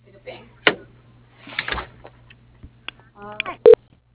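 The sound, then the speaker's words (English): A telephone call is transferred to voicemail: short beeping tones sound near the end, after a voice talks over a faint steady line hum. “But I can put you through to his voicemail.”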